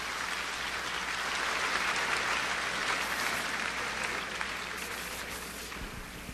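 A church audience applauds in sustained, dense clapping. Many hands blend into a continuous wash of noise that stays at an even level throughout, easing slightly toward the end.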